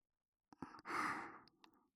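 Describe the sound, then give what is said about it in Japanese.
Gentle breathy blowing into the ear during ASMR ear cleaning: a few tiny mouth clicks surround one long, soft exhaled breath, all very quiet and close. “お耳の中をふうふうとして汚れを取りやすくしていきますね。”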